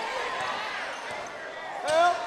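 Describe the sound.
A basketball being dribbled on the court during a county tournament final game, a few faint bounces under continuous play-by-play talk.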